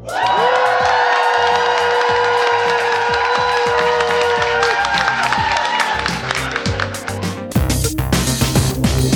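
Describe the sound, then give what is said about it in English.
A live audience applauds and cheers with whoops and dense, continuous clapping. A sustained musical tone fades early on, and a louder burst of applause and cheering comes near the end. “For those of you listening at home and around the world, this is our fifth show in front of a live audience”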